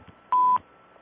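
A telephone call-waiting beep: one steady, clear tone lasting about a quarter second at an even pitch over a faint background hiss.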